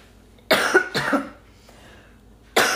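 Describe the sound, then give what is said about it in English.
Coughing from a tickle in the throat: a few harsh coughs come close together, then a short pause, and another cough begins right at the end. “So sorry, I've got a tickle in my throat and no drink to fix it.”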